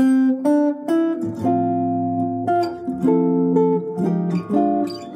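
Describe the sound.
Chord progression using a backdoor dominant seventh that resolves to a major seventh chord, with a G minor 7 and C7 also mentioned; a clear sequence of sustained, ringing chords with changes at a quick, even pace.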